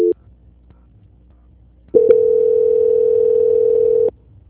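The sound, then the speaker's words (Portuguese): A telephone call-transfer tone: a brief beep at the start, then, after a quiet pause, a single steady mid-pitched tone held for about two seconds before it cuts off. “Só um momento enquanto eu transfiro a ligação, tá bom?”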